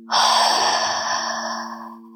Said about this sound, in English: Once more, deeply inhaling through the nose. Exhale through the mouth.